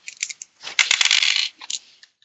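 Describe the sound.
Dice rattle and tumble across a surface during a tabletop roleplaying game roll: a few quick clicks, then a dense clatter lasting about a second, then a few more scattered clicks before it settles. No one speaks.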